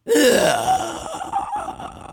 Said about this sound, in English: And that's just kind of a ghostly inhaling kind of sound.